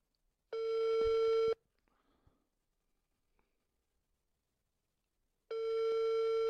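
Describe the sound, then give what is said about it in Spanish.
Ringback tone of an outgoing telephone call ringing unanswered: two steady, buzzy tones of about one second each, separated by roughly four seconds of near silence with faint small noises, the second tone running to the end. “A ver, otra vez a Chano. Pero creo que no va a contestar.”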